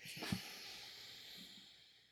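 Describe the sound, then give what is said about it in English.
A slow nasal exhale through one nostril during alternate-nostril breathing gives a soft, steady, airy hiss that stays faint throughout and tapers off toward the end, with no voices. “Plug and hold. Exhale through the right.”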